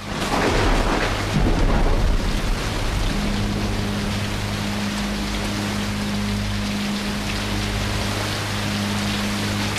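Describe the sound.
Heavy rain and storm at sea on a boat's rain-lashed deck: a dense, loud, continuous hiss of rain with a deep rumble in the opening seconds, then a steady low hum beneath the downpour.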